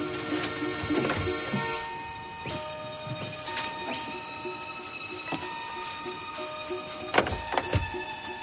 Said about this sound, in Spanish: Ellos detienen tras este la furgoneta y bajan con cautela cerrando las puertas con cuidado.